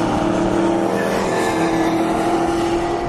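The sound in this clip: Race cars coming out of a corner on a track, heard as a continuous loud engine roar with a steady droning tone and no distinct individual pass-bys.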